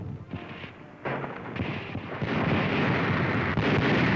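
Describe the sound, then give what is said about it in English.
American artillery shells pounding the naval station at Bizerte, heard as deep booming blasts that merge into a dense, continuous rumble, which swells louder partway through and stays heavy to the end. “There's the naval station at Bizerte being pounded by American shells.”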